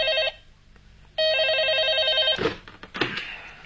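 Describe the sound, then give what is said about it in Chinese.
An office telephone in a criminal investigation department rings urgently at night: a short ring burst, a pause, then a longer, evenly pulsing electronic trill, followed by some brief noises. “3天以后的一个夜晚，刑侦处办公室的电话急骤地响起了。”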